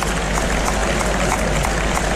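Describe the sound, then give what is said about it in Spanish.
Crowd ovation for a bullfighter at the Seville bullring, heard as a dense, steady wash of clapping and crowd noise that is loud and unbroken throughout. “Qué bonita la ovación que le está tributando el público de Sevilla”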